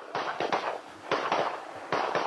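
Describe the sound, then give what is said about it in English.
Shotguns fire at close range at a pigeon shoot: several sharp, booming blasts in quick clusters of two or three, each with a short decaying tail, and a brief quiet between the groups. “Shooters have shotguns, they are at fairly close range, and they blast away at the birds.”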